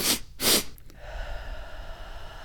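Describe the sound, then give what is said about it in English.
A person makes breaths that imitate a baby's spasmodic breathing after crying, as part of a breathing exercise: two forceful breathy bursts, then a couple of short, faint catches before it goes quiet. “that one is supposed to mimic, imagine a baby crying, and when they stop to cry, they're like their body's still kind of spasming as they're trying to get their self back in.”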